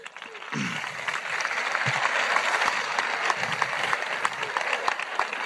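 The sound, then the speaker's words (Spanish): Audience applause after a horse show at a festival in Ubrique: dense, steady clapping starts about half a second in and continues evenly to the end, moderately loud with scattered sharper claps. “Y enhorabuena y un aplauso fuerte porque os lo habéis merecido.”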